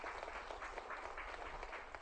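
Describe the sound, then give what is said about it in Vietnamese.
Audience applause at a lively show as a crowd welcomes a participant, dense steady clapping that holds at an even, fairly soft level from start to finish. “Vỗ tay hoan nghênh cho người bạn này.”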